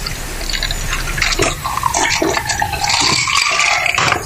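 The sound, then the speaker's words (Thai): Soda water poured into a glass, splashing and gurgling with a bright, crackling fizz that runs loud and continuous throughout. “เติมโซดาหน่อยโอ้โหซ่ามาก”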